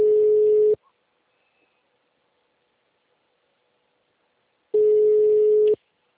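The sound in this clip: Telephone ringback tone as a call is placed before it goes to voicemail: two steady, loud, low buzzing tones, each under a second long, separated by about four seconds of silence.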